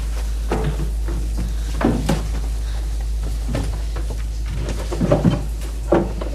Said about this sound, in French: Elle entre dans un dressing. Elle fouille dans les tiroirs.